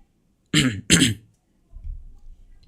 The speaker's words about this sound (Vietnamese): Mình đang đọc thì nó hay bị ho ấy, nên có gì anh em thông cảm cho mình nhé.